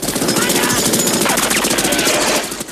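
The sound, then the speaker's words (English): Rapid machine-gun fire from a patrol boat gunner raking another boat with bullets, a fast, steady rattle of closely spaced shots that stays loud throughout and eases off just before the end. “A gunner peppers Kin's boat with bullets.”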